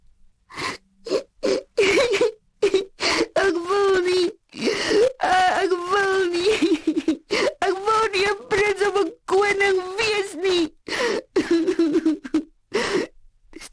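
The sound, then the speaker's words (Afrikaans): A voice imitates a little prince sobbing on his bed, with many short, broken, wailing sobs and whimpers punctuated by gasps, loud and uneven in rhythm. “O, fooi tog, hy is so hartseer. Kyk hoe snik hy, sê die fietjies.”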